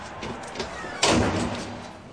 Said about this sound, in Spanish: entra por una puerta metálica que ha abierto con llave